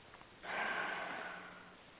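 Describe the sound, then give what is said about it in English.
One deep breath drawn in, a soft, airy rush that swells quickly and then tapers slowly over about a second and a half. “Close your eyes, take a deep breath, and check in with your heart.”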